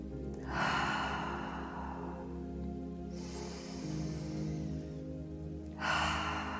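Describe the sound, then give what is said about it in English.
Slow, deliberate breaths during a square-breathing exercise: three long, airy breaths with quiet pauses between them, soft and without talk. “So I breathe, I pretend that I see a square, and I breathe in.”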